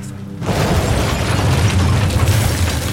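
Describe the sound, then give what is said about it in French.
Charges set off by detonators explode with a sudden boom after a short quiet moment, then a heavy rumbling roar continues steadily to the end. “Attention! On va actionner les détonateurs. Ouvrez la bouche et baissez la tête.”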